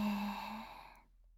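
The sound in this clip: A single slow exhale during a relaxation breathing exercise, starting with a soft voiced sigh and thinning into breathy air that fades out after about a second.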